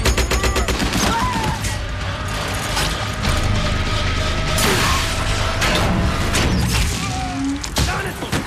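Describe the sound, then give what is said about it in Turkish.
Machine-gun fire in a tank battle, dense rapid bursts of loud cracking shots with mechanical rattling and clanking running throughout. “Makineliyle vur.”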